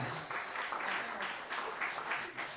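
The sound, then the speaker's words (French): An audience applauds performers at a live music show, a faint but thick wash of clapping hands that swells and eases slightly in waves without ever stopping. “On applaudit très fort Jean-Marc et Florence”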